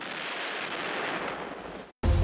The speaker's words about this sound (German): Die schießen wieder den ganzen Tag. Schau nur. Ein Blitz, Rauch und Qualm.